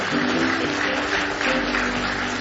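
A church audience claps hands in praise, a dense continuous patter of many hands at moderate volume, steady throughout the short stretch with no voices standing out.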